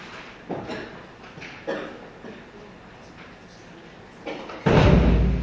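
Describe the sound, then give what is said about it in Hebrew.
A door is closed, ending in a heavy, low thud near the end after a few softer knocks and shuffles. “אפשר לסגור את הדלת?”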